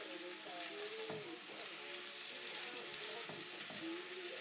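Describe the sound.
Steady sizzling of potato, cabbage, onion and mushroom frying with black pepper in a little olive oil in a deep saucepan. A continuous hiss runs throughout, broken by a few brief stirring knocks.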